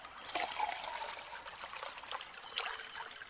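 Lake water is poured out for someone to drink, making a steady trickling, splashing flow with small bursts of louder spatter throughout.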